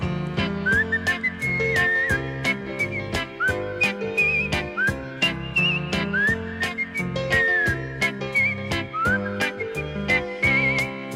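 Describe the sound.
A bright, high whistled melody carries a cheerful Christmas tune over a backing of steady, evenly spaced percussion beats and low accompaniment, with the whistling sliding between notes in short phrases from start to end.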